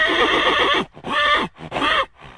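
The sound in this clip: A dressage stallion neighs in a few loud, shrill whinnying bursts separated by brief pauses, with no talk.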